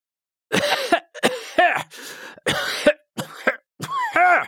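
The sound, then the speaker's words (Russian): A man in a violent coughing fit: a rapid string of harsh, rasping coughs and throat-clearing bursts, loud and with only brief gaps, no speech. “У Сюйцзы зашелся в приступе жестокого кашля”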